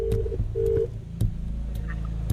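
A telephone being dialed: a few short electronic tones with sharp clicks between them over a low, steady hum, moderately quiet.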